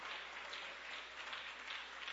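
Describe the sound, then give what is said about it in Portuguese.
Church audience clapping during a Portuguese-language worship service, a faint but continuous even patter of many hands with no distinct breaks. “Pode bater as palmas para Jesus. Pode bater as palmas para Jesus.”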